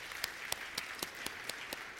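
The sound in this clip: Audience applause at a church service: steady, faint patter of many hands clapping, with a few louder individual claps standing out at roughly regular quarter-second intervals, continuous and alone.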